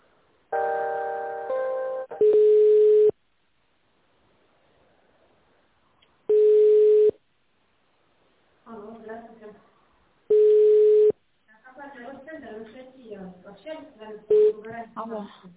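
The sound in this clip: Telephone line tones sound while a call is being transferred: three long, steady beeps evenly spaced several seconds apart, with stretches of people talking on the line between and after them.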